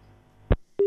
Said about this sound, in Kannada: ಕರೆ ಕಟ್ ಆಯಿತು.